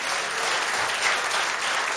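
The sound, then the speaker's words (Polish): A crowd's applause honoring rock band members and an author. Dense, even clapping continues for about two seconds at a steady, moderately loud level. “wielkie brawa.”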